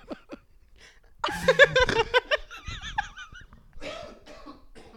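Coughing and throat clearing from phlegm in the throat: a few short, harsh bursts, then a louder cluster of rough coughs with strained voiced sounds, easing into quieter rasping near the end.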